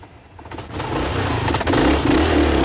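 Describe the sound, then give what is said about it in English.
Loud motorbike engine revving as two riders roar off, a rough rising roar with clattering mechanical noise that swells and stays strong to the end. “Curtis and Kate roar off on the motorbike”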